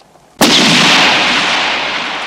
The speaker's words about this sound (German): Keiner der Vögel ist getroffen. Maureen sinkt langsam zu Boden. McBain stürzt hin zu ihr zu seinem Gewehr, wird im Lauf von Kugeln getroffen.